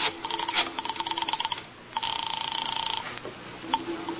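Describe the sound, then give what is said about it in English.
A telephone being dialed for a call gives a few runs of rapid, even clicks with short gaps between them, over a steady thin hum. “Nothing. Just a little phone call.”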